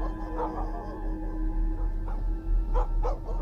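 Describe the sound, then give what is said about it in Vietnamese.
A dog barks in short, whiny yaps, with a few sharp bursts standing out over a steady low hum. “Đúng lúc cô còn đang ngỡ ngàng, chưa hiểu là chuyện gì xảy ra thì một tiếng chó sủa nhấm nhẳng vang lên.”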